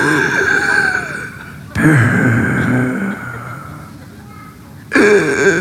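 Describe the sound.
Darth Vader's heavy mechanical breathing from Star Wars: loud, slow, hissing inhales and exhales that alternate in a steady, labored rhythm with a faint metallic tone.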